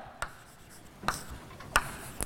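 Chalk or marker writing on a board during a maths lecture: a few short, scratchy strokes, each a bright burst with quiet gaps between, the last ones closer together.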